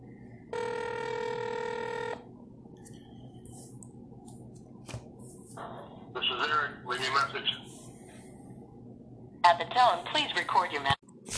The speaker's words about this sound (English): he's the one that gave me that nickname and I'll be giving him a call here.